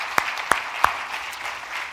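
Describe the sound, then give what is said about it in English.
Applause from an audience in a room, with three sharp, distinct claps standing out over a steady wash of clapping noise. “Let's give him a big hand for doing that and for sharing with us today.”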